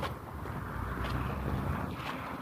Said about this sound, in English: They're all brown and rattly, but they didn't drop. So the wind blowing through just now is,